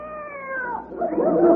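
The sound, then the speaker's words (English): A Siamese cat meows: a drawn-out, nasal yowl that slides downward in pitch, followed by a rougher, louder cry that rises in strength. “Our Siamese cat.”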